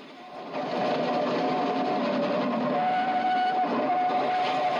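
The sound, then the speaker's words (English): A steam train rushes out of a tunnel as a fireman stokes the coal fire. A loud, steady mechanical roar swells in at the start and holds, with a faint sustained whine riding on top. “As an engine steams out of the tunnel, a fireman stokes the boiler's roaring fire with coal. Sitting on the fence at the top of an embankment, the children watch the train streak past, steam gushing from its funnel.”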